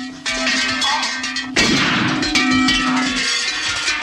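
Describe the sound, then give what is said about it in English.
Hanging bells in a cellar clang as a man's head strikes them during a struggle. Two loud metallic hits ring out, each leaving a bright, sustained ringing that lingers. “He seals himself inside and hits his head on rows of hanging bells.”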